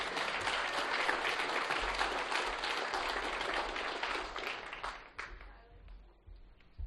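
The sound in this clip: Audience applause welcoming a comedian to the stage: loud, continuous clapping that thins out and fades after about five seconds.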